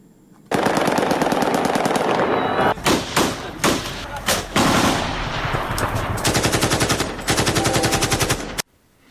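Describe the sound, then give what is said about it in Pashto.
Celebratory aerial gunfire rings out in Afghanistan after a cricket victory, loud automatic volleys of rapid shots broken by sharper single cracks and brief gaps, then stopping abruptly. “دغه د کومې ډلې یا مخامخ نښتې ډزې نه دي، بلکې هغه هوایي ډزې دي چې خلک یې د کرکټ د بریا په خوشحالۍ کې کوي.”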